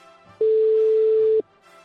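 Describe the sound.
A single steady telephone tone sounds for about one second while a call is being placed. It is a plain mid-pitched beep standing alone over a faint background.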